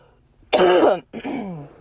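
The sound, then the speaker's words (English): A quick cough and throat clearing come as two rough bursts, the first stronger, then a softer raspy follow-through, heard alone. “I also just want to say thank you for sticking with this cough right now”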